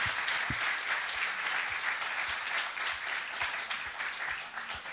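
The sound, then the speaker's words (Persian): A church audience claps in sustained, even applause for God, a dense wash of many hands that carries on for several seconds without a break. “برای خداوند یه دست بلند بزنیم.”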